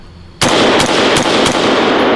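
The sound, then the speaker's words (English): Rapid gunfire at a shooting range, aimed at steel plate targets, erupts loudly after a brief quiet start and keeps up as one dense, sustained burst broken by a few short dips. “Oh, let's go to the red plate. Oh, yeah. Let's shoot some steel, because that's who made that one. Let's shoot it again.”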